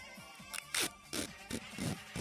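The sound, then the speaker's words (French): Gummed tape is handled as a makeshift noisemaker, giving a handful of short, rasping, crackly bursts with brief scratchy chirps between them, fairly quiet overall. “J'ai quelque chose qui fait du bruit, bout de calvasse. Ah, tiens! Quoi ça? Du ruban gommé!”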